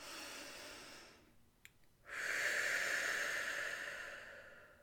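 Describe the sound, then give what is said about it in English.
A deep cleansing breath: a long, soft, airy rush of air fades out, and after a short pause a fuller, louder breath hisses and slowly tapers off. “Take a deep breath. Let's do another one of those, okay? Cleansing breath here.”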